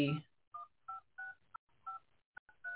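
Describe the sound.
Telephone keypad dialing tones as a caller dials in to an online radio call-in show: a series of short two-tone beeps at an uneven pace, mixed with a few sharp clicks, with no talk.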